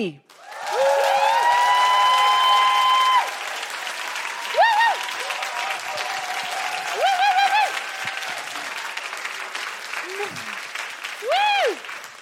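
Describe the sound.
Audience applause welcoming a guest, loud and dense clapping that holds steady for about three seconds and then carries on with shouts and whoops from the crowd.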